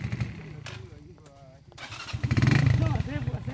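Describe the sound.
Motorcycle engines restart on a muddy track as riders push along with their feet. The engine rumble is low and uneven, then swells louder through the second half, with voices talking over it.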